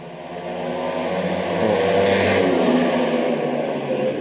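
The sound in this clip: A car revs past near a racing zone, its broad whooshing engine roar swelling toward the middle and holding steady before easing slightly, with no voices over it.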